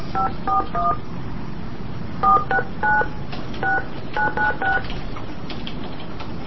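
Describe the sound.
Touch-tone keypad beeps as a telephone number is dialed: short two-note tones in three quick groups separated by brief pauses, clear over a steady background hiss.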